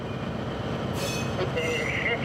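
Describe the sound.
A freight train is pushed out slowly during shunting, giving a faint, steady low rolling rumble with a thin high metallic squeal toward the end.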